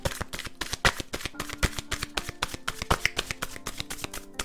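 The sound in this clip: Psychic tarot oracle cards being shuffled, giving irregular crisp clicks and flicks of card edges with a few louder snaps, and no talk.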